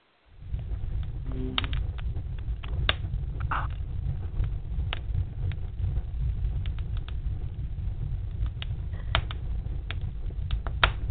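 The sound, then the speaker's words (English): A wood fire in a grand fireplace in a Great Room crackles with many sharp, irregular pops over a steady, soft low rumble, with no voices. “They are relaxing at one of America's most beautiful fireplaces in what is called the Great Room.”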